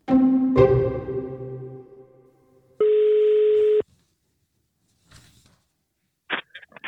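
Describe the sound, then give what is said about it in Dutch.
A telephone call being dialed: a ringing tone that fades, then a steady flat tone lasting about a second, a quiet pause, and a few short beeps at the end. “Wil je iemand bellen? Laten we iemand bellen.”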